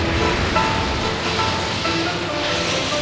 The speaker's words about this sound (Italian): L'acqua è in completa aderenza! Barca dritta! Si vola!